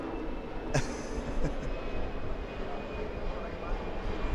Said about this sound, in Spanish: aquí en Cartagena, ese avión que está despegando